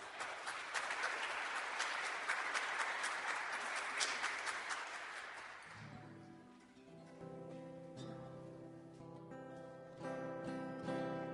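Audience applause welcoming a performer on stage: dense, steady clapping for about six seconds that then fades as tuneful music takes over.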